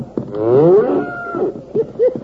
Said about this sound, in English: Look at that little white-faced calf go.